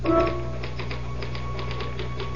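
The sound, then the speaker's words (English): Typewriter typing: many rapid, light clacking keystrokes in an uneven run over a steady low hum, with no voices. “I typed the results of the fifth and sixth races at Aqueduct.”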